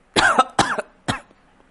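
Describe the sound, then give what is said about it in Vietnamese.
A man coughs in a quick series of three short, harsh coughs after angry shouting, loud and alone with no talk. “Tiết Hồ vừa hét to, nhịn không được liền ho khan hai tiếng.”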